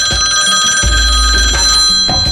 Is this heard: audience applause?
no